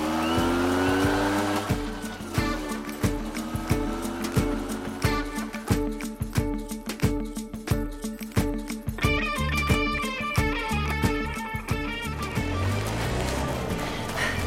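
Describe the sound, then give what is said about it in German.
A vehicle driving off, its engine tone rising at the start and then running on with a busy stream of rattling, clicking transients and shifting tones, fairly loud throughout. “Kommen Sie, ich fahre Sie zu Katrin, ja? Na los, ja, steigen Sie auf.”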